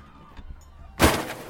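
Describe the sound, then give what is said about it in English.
A piano dropped from 100 feet smashes in one loud, sudden crash after a near-silent lead-in, then a short, rough rumble that decays over about half a second. “here's the sound of a piano being dropped from 100 feet.”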